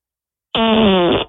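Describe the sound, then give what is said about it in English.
A single loud fart, buzzy and raspy, lasting under a second, on its own with no talk. “I just farted. Yeah, we heard.”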